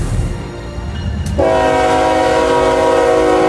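A train horn blares, after a short stretch of low rumble: a loud, sustained chord of several steady tones that holds unbroken to the end.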